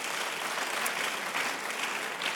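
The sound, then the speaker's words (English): Audience applause during a church service for a pastor couple: a dense, steady patter of many hands clapping at even loudness throughout, with no voices over it. “can you give them a round of applause?”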